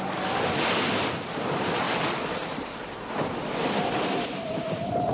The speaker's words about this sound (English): Shake in the sails! Hurry, the wind will tear them to shreds!